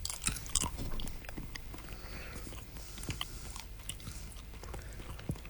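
Faint chewing of a Bean Boozled jelly bean: soft, continuous crunching and moist biting clicks, denser at the start, with no talk over it.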